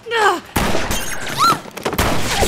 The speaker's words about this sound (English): Hey, what's that light? Huh? Goodness, that's from a sniper! Hit the floor! Again?